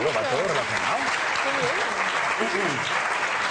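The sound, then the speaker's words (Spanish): Applause from an audience, a dense, steady clatter of clapping that stays loud throughout while a voice speaks over it. “Un aplauso para él.”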